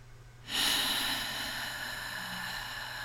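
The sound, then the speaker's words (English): A slow, deep exhale during a guided breathing exercise, a soft breathy hiss that starts abruptly and tapers off gradually over several seconds, heard alone. “let's take a deep exhale together. So find your next exhale.”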